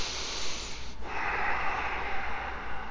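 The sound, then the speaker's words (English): Powerful in-and-out breathing through the nose during a yoga exercise, a steady loud rushing hiss with a brief break about one second in. “Exhale your lips. Breathe in and out through your nose powerfully.”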